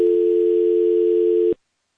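A telephone dial tone after a caller has disconnected: one steady, unbroken hum lasting about one and a half seconds, then cutting off abruptly into silence.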